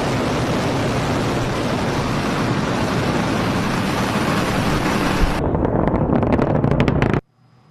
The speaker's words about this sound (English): You may recall back in January, SpaceX launched a rocket without a hitch. Ignition and liftoff.